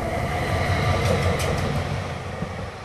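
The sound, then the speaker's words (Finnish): A train runs through Huopalahti railway station in Helsinki with a loud, steady rumble of wheels and carriages, a continuous rolling clatter with a faint metallic squeal riding on top. “Tämän alueen junaseisakkeen nimi on Huopalahti, vaikka sen nimistä kaupunginosaa tai aluetta ei ole enää olemassa. Huopalahden asema ja sitä ympäröivä alue on yksiselitteisesti Etelä-Haagaa.”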